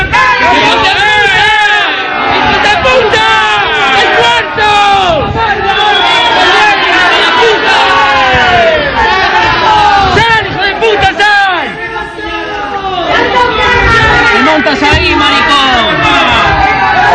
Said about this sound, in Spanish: este es el sonido de anoche de unos vecinos contra ese narcobajo en Oventorrillo, ¿no? Se pusieron alrededor del bajo